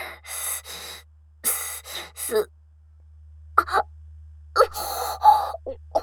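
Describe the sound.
Repeated hiccups come as many short, sharp, breathy bursts in irregular groups, separated by brief silences, each fairly loud and abrupt.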